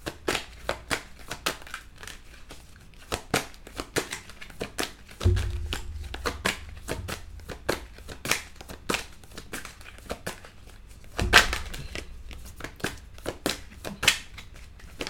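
Tarot cards being shuffled and drawn: many crisp, quick snaps and flicks of card stock, with two louder rustling bursts partway through and no talking.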